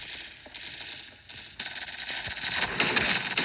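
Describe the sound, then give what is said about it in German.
Automatic gunfire from a video game with auto-shooting, heard as rapid bursts of sharp clicking shots. Sparse and quieter at first, the firing grows denser and louder in the second half. “Das Game hat einfach Autoschießen, wie auch immer man das nennt.”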